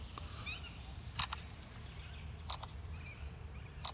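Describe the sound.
Camera shutter clicks as photos are taken of a monkey: three sharp, brief clicks spaced roughly evenly over a low, steady rumble.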